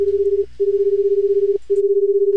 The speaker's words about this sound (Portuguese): Liga aí, liga aí. Ó, tamo ligando aqui pro Xi, o podcast 80 watts.